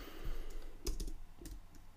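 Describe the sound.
Typing on a computer keyboard: a few crisp key clicks with uneven gaps, fairly quiet over low background noise, with no talk.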